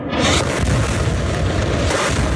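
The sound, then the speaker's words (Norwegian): Bombs exploding over Gaza City in wartime make a dense, continuous booming rumble, loud throughout with no clear gaps between blasts. “Israelske bomber ryster Gaza by.”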